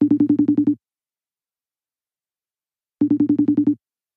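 Ringback tone of an outgoing phone call: two short bursts of rapidly pulsing mid-pitched tone, about three seconds apart, with silence between.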